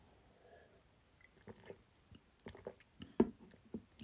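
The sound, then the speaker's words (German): Quick sip of a drink: faint mouth clicks, a soft slurp and small swallowing noises, a scattered series of brief, quiet sounds after a near-silent start. “Ähm, kurz einen Schluck getrunken.”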